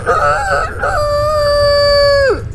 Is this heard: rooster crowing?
yes